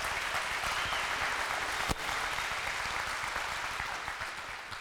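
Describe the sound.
Audience applause for a speaker, an even, sustained patter of many hands clapping at moderate level that eases slightly toward the end.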